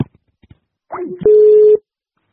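Telephone tones from a call placed to a mobile phone: a few faint clicks, then a brief warbling, sweeping tone, then a steady mid-pitched tone lasting about half a second before it cuts off.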